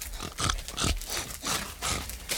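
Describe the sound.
Pigs grunting, animals nearly the size of wild boar raised for ham, giving several loud, rough grunts in quick irregular bursts with no talk over them.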